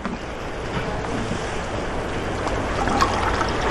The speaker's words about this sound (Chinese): 服务员，加点水。